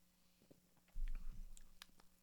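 Chewing on a pumpkin-flavoured snack: soft, crunchy bites and mastication begin about a second in and continue at a faint level, with no talk.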